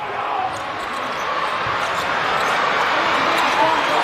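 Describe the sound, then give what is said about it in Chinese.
A basketball thumps as a player dribbles it up the court during a game involving Iran's team, the bounces buried under steady crowd noise with a voice talking over it. “杨气奇带球到前场”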